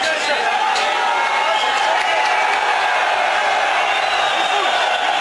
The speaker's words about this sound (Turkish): Tezahüratlar yapan taraftarlar havalimanında izdiham oluşturdu.